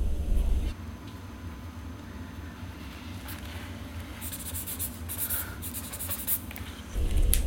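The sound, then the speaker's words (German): Pen scratching on paper as someone sketches a ski jump: light, irregular strokes and scrapes, busiest in the middle and later part, over a low steady hum. “Aber weißt du, was ich immer mache? Ich zeichne nämlich immer.”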